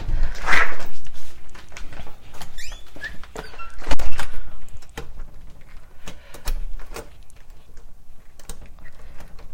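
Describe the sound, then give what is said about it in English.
A sticking door lock is being worked open, giving many sharp metallic clicks, rattles and scraping knocks. Steady rumbling background noise runs under them. “Huh, my lock is being sticky. What's up with that?”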